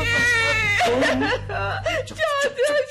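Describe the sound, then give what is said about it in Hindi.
A woman cries and sobs in loud, tremulous wails whose shaky pitch wavers and breaks, nearly continuous over a low steady hum. “चाचा जी को क्यों पुकार रही हो? रोना ही है तो मन में रो। देखो मैं दरवाजा खोलने जा रहा हूँ। है ये लो रुमाल से आंसू पोछा लो।”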